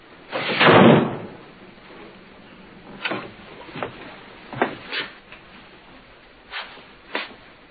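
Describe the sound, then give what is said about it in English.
A door is shut with one loud, broad thud, then several sharper and quieter clunks and knocks follow, spaced out over the next few seconds. “Closing that door.”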